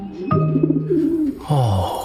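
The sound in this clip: A healthy young pigeon with bright neck feathers gives two low, throaty coos, the first long and rolling, the second shorter and sliding downward in pitch.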